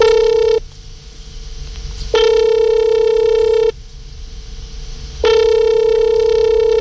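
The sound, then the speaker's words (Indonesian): Ringback tone of an outgoing telephone call being placed: three steady, buzzing harmonic tone bursts, each over a second long and separated by short quiet gaps, heard alone with no voices. “Oke, kita akan coba hubungi dulu. Mohon ditunggu, nanti kalau sudah tersambung nanti Hans”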